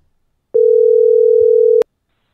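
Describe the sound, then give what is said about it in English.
Telephone dial tone after the caller hangs up: one clean, steady, loud electronic tone of a little over a second, alone in silence, cutting off abruptly. “Hello? Do you hear me? No, they just keep hanging up. I think they're done.”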